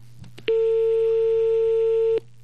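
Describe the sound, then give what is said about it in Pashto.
Telephone tone after a dropped call: a single steady, mid-pitched electronic beep lasting under two seconds, clean and loud over a low constant hum, starting and stopping abruptly. “تاسو کال غالبا کټ شو سیګنل کې مسله ده یا نور څه وجه ده”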